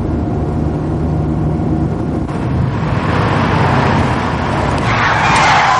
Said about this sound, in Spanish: Cornelio da un volantazo y se detiene al encontrar el camino bloqueado por un carro de combate en llamas